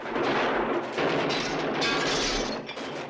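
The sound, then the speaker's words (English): A dense, loud barrage of gunfire in a film shootout, as fighters behind a stone wall trade shots with soldiers firing back from cover. Overlapping cracks and bursts run almost unbroken for three seconds. “Kino and Max join Levi and Chris behind a stone wall. They trade shots with some soldiers who've managed to take cover and are returning fire.”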